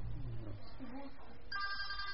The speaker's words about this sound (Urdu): دیکھو آپ کا موبائل میں اچھا بج رہا ہے, اس میں ٹون لگی ہوئی.